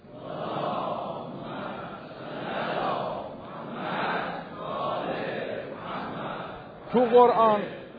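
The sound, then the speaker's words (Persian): An audience recites salawat in unison during a religious talk, a sustained murmur of many voices rising and falling in several waves, with a louder, sharper burst of voice near the end. “یه صلواتی بفرستید.”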